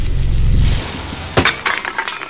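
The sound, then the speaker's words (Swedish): A ball hits a stack of soda cans with a sharp crash, followed by a scatter of metallic clinks and clatters. A low rumble comes before the impact. “Burkarna flög åt alla möjliga håll. Inte en enda stod kvar på sin plats.”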